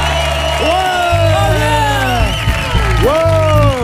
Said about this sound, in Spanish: Como se nota que son aplausos pregrabados. ¡No, hombre! En verdad no ha venido nadie. ¿Cómo que no? ¡Mira cómo suena el público de esta noche!